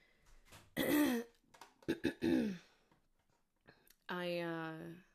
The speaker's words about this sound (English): obviously I'm having a clearing of the throat thing going on.